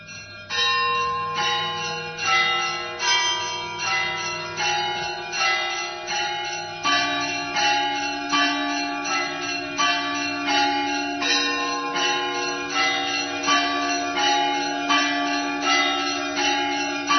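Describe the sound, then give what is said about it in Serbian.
Church bells ring at Hilandar Monastery on Mount Athos, with many bright strikes in a steady rhythm whose tones overlap and hum on between blows for the whole stretch. “Sunce možda u ovaj čas zalazi nad Svetom Gorom. Zvone zvona Hilandarska.”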